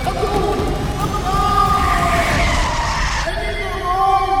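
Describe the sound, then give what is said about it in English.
A Jeep skids and spins out of control as its lug nuts work loose, giving a loud, continuous screeching rush of tire noise that holds steady across the whole stretch with no letup. “The lug nuts are coming loose, and Jimmy's having trouble keeping control of his Jeep. Andy Lugnut is in a bad fix. Whoa. I'm spinning around.”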